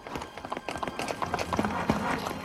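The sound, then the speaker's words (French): Shod hooves of two horses clattering on cobblestones along a London street in 1763: a dense, rapid, continuous patter of hoof strikes, steady and moderately loud throughout. “Les fers de leurs chevaux résonnent sur le pavé.”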